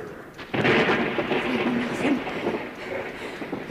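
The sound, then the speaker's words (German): Thunder from a thunderstorm: a sudden broad crash that settles into a rolling, rumbling roar and slowly fades over the next few seconds. “Ruhig, ganz ruhig. Es ist nur eine Gewitter.”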